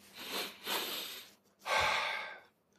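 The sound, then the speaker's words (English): A person takes a deep breath, heard as airy rushes of breath alone: two softer pulls of air, then a stronger, fuller breath that tails off. “I'm going to uh, take a deep breath”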